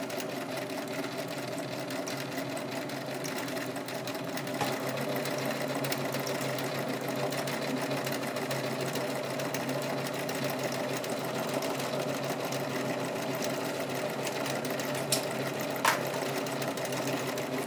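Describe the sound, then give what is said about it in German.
A sewing machine stitches a shell hem on fabric, giving a continuous, even mechanical whir with a fast, steady hum. The level stays low and constant for the whole stretch, with no voices. “man muss äh, nicht umbügeln, nichts stecken, sondern kann einfach immer nachfassen und näht den Muschelsaum.”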